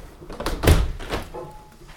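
A window closing after being washed and wiped down to the frames, one dull solid thud followed by a softer knock, with faint rustling around it.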